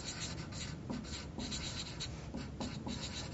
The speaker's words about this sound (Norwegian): Skriv opp det.